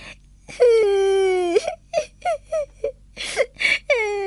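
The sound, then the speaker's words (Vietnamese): A young girl cries loudly: a long wavering wail, then several short sobbing bursts and another drawn-out wail, with no speech. “Thế là Jolly bắt đầu khóc.”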